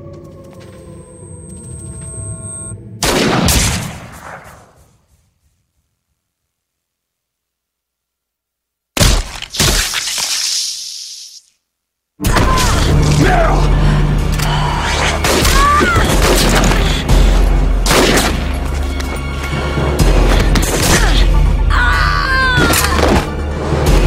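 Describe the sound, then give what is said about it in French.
Sniper rifle fire in a video game: a sharp, loud booming shot, a stretch of silence, then a second loud burst. After it comes a dense, continuous wash of game sound with crashing effects. “C'est en voulant aider Snake à déminer un passage que Meryl s'expose au tir d'un sniper, une femme nommée Sniper Wolf.”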